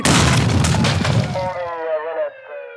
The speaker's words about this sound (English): detonated the device, killing himself and causing minor damage to the armory. No officers were injured in the blast.